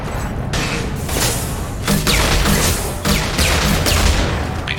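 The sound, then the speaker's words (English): A grenade launcher fires grenades in a video game, with a few booming shots punching through continuous dense game noise and rumble. “Wow, we shot four grenades, and I think I missed with all four of them.”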